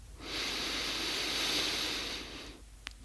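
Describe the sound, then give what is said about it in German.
A single deep inhale through the nose during a guided breathing exercise: a steady, airy hiss that swells in, holds for about two seconds and fades, followed by near silence. “Und nochmal einen Atemzug durch die Nase ein.”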